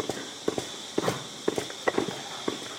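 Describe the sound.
A milking parlour during milking gives off regular, soft pulsing clicks about twice per second, over a steady background hiss and hum.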